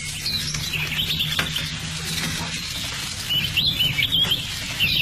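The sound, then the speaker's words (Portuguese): A small bird chirps as it is set free, with quick, high twittering bursts at the start and again near the end over a low, steady background hum. “Vai, passarinho. Você, como as crianças, também tem o direito à liberdade.”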